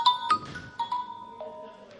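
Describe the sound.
A mobile phone ringtone plays a short run of clear electronic notes, a few bright tones changing in pitch, fairly faint and without any talk over them.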